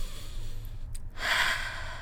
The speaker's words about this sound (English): So take a deep breath in and